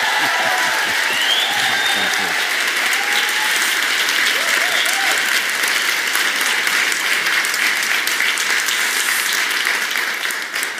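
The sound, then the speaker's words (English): Audience applause and ovation fills a room as a guest speaker is welcomed to the stage: dense, steady clapping that holds for about ten seconds before tapering slightly at the end. “And those of us in this room, we want to give the biggest ovation we can.”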